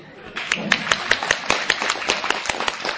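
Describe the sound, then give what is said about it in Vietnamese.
Rhythmic hand clapping from an audience at a Vietnamese-language teaching talk, many sharp, evenly spaced claps keeping a steady beat for about three seconds. “Chịu không? Chịu vỗ tay đi.”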